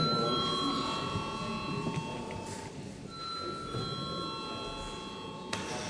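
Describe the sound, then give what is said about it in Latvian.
An electronic bell rings in a parliament chamber to call members to a vote, its sustained steady tones running over a low murmur of voices. “Lūdzu zvanu.”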